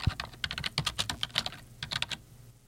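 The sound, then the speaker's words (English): Fingers type a name on a computer keyboard in a quick run of many clicking keystrokes, with a brief pause partway through. “Okay, so when we type in Jimmy Carter, a number of things come up.”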